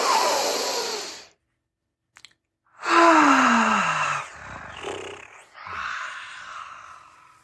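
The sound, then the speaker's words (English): A group takes a deep breath together at the start of a team activity: a long, rushing inhale, a pause, then a long exhale with a falling breathy tone, followed by a few softer breaths. “So let's take a deep breath, everyone.”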